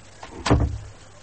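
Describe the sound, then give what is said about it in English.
A door being shut in an office, heard as one dull, low thump, brief and fairly loud, with no voices. “Close the door”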